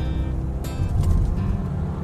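Engine of an old car towing a load, a steady low, broad rumbling drone that stays even throughout, with no clear rise in pitch.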